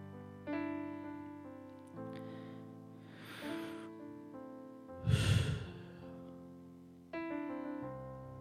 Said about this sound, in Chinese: 这段呼吸我大概是不会剪的。